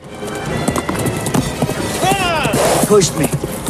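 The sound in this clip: A horse gallops at full speed through dark woods, its hooves pounding loudly under a rider urging it on. A whinny rises over the hoofbeats midway through.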